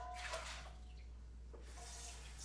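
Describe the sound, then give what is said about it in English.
Water runs faintly as a bowl is rinsed out at home while preparing potatoes, in two soft splashing spells over a low steady hum. “I might need a bigger bowl than this. Let's see. Because it's a lot of potatoes. I'm gonna just rinse this guy out.”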